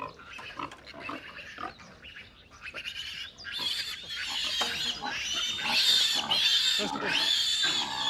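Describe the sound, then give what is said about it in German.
Sows and piglets grunt and give high, squeaky calls as they are driven out to pasture, with the young ones going out for the first time. The sounds are steady and busy, and people talk over them. “Hauptsache, die Sauen marschieren in die richtige Richtung. Die Ferkel folgen sowieso.”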